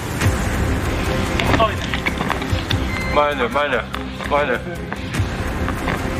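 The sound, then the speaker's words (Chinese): A herd of wild boar approaches with a loose patter of running footfalls over steady outdoor noise, while people talk quietly. “慢点。野猪群。 野猪。过来了，别动，停。”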